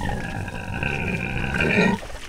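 A female pig grunts and groans as her back is scratched on a breeding farm, giving one drawn-out, nasal, tonal call of about two seconds that cuts off abruptly.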